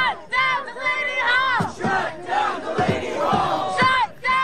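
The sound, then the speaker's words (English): Protesters chant and shout outside Delaney Hall, an ICE detention center in Newark, New Jersey: a loud, continuous mass of raised voices with rhythmic, cry-like bursts. “Sounds we're listening to there from protesters outside Delaney Hall. This was recorded by WABC.”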